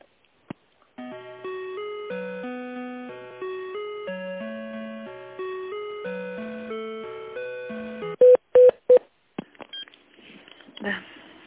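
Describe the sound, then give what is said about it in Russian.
Electronic hold melody of steady, synthesized tones plays on a telephone line while a call is transferred to another department. A few sharp clicks and a brief noisy rustle follow the melody. “Давайте я вас соединю сначала с отделом.”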